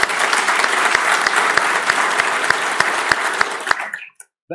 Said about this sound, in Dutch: Zit je nou ook te applaudisseren? Ja, natuurlijk. Voor jezelf.